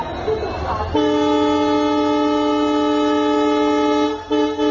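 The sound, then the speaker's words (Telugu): A train horn sounds at a station: a loud, sustained chord of steady tones that starts after about a second of noise, holds evenly, then breaks off briefly near the end and resumes. “Train ఎక్కి ముందు settle అయ్యి తర్వాత తీరిగ్గా ఆలోచిస్తా.”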